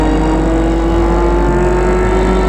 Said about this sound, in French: La voiture quitte la ville. Elle file, file.